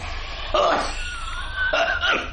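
A man stifles a cough while reaching for a door handle by a wooden trellis gate on a garden path in a stage play, heard as two short, muffled bursts separated by a pause.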